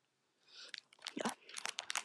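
A red hard candy is chewed, giving a quiet run of sharp, brittle crunches and cracks that come in quick irregular bursts.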